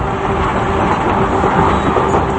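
Train moving along rails through dense woods, a loud, steady rumble with a faint tonal hum running through it and no clear breaks or beats.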